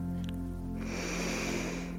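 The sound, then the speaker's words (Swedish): A person draws a slightly deeper breath, a soft, steady rush of air that starts a moment in and continues to the end, quiet and alone. “Och du kan ta ett lite djupare andetag.”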